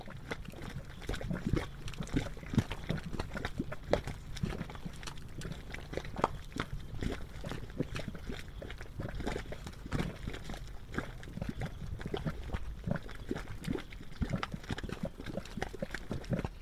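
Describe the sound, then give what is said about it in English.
Gurgling of a geothermal mud pot, a multicolored paint pot of wet clay mud bubbling as gases escape from deep in the earth. Soft, dense, continuous pops and bubbling plops run unbroken throughout. “Various gases from deep within the earth escape through the wet clay mud, causing it to bubble. The gurgles of this multicolored artist paint pot were recorded by John R. Benham.”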